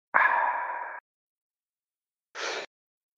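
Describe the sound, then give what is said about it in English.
A deep breath drawn in, heard alone and fairly faint as a breathy rush lasting about a second. After a pause comes a second, shorter breath. “Takes a deep breath in. Motions towards his chest.”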